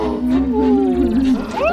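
A robot seal toy lets out a sustained electronic seal cry, a wavering, tonal bleat that wobbles in pitch and turns sharply upward at the end.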